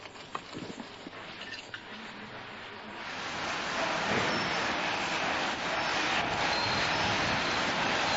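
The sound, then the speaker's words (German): A van drives into a prison in St. Petersburg: a faint, noisy engine and road rumble that swells after a few seconds into a steady, louder hiss and drone. “So this is our van going into the prison.”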